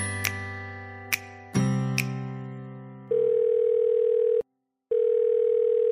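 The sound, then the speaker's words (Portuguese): Telephone line tone on an outgoing call: a few sharp clicks over a steady hum give way to a loud, steady tone that cuts out briefly, then returns and holds to the end. No voices. “sem mais conversas, sem mais recados, vamos ligar para Rodrigo Cosma e ouvir que histórias ele tem para contar pra gente.”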